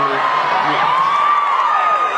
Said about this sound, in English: Don't cheer, you homophobes.